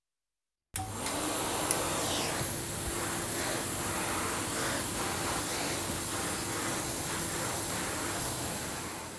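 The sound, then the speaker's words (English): A floor-cleaning machine starts up abruptly and runs with a loud, steady whining roar and airy hiss that holds level to the end. “This machine cleans floors.”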